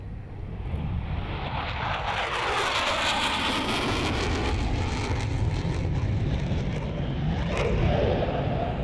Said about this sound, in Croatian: Pitch Black je izuzetno bučna vojna vežba. Ratni avioni iz celog sveta prizemljili su se u Darwinu gdje će ostati nešto više od 2 nedelje tokom vojnih vežbi